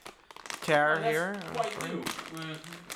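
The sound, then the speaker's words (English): A crisp bag is torn open along its marked tear line, giving a papery crinkling and rustling that runs beneath continuous talk from a person speaking. “I tore it where it should.”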